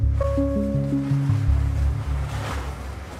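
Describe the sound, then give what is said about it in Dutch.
Rough sea on a ship waiting offshore, with high waves and a cold, strong wind of force five to six: a dense, steady roar of surf and wind. A short sequence of stepped tones sounds over the first second and a half. “Met hoge golven en een koude, straffe wind. Mensen zitten er nu echt doorheen. We hebben windkracht 5, 6 en het water spat nu op.”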